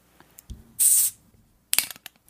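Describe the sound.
A Corona beer bottle is cracked open with a brief, loud hiss of escaping gas, followed a moment later by a short clatter of small clicks, with near silence around them.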